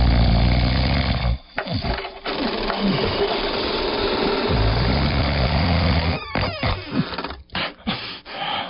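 A man snoring loudly, producing a rough, low, rasping drone with a buzzing grain that carries on almost continuously, interrupted by a few short breaks and some choppier, stuttering breaths toward the end.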